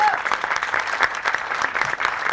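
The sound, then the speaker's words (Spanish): An audience applauding at a university talk: steady, dense clapping at an even level throughout, with no voices rising above it. “Un aplauso para él.”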